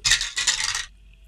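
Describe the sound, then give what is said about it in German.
A twenty-sided die clatters as it is rolled: a bright rattling burst in two quick tumbling pulses, lasting under a second, before near silence. “Dann äh, würfel mir mal bitte ein W20.”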